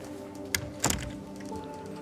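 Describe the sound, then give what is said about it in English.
Plastic and rubber cylinder arriving through an office pneumatic tube, heard as a couple of soft, brief thunks close together against a faint, steady background. “this is how the correspondence comes for the office. Little plastic and rubber cylinders shot through pneumatic tubes. and the tubes go up to the ceiling and circulate all around the building.”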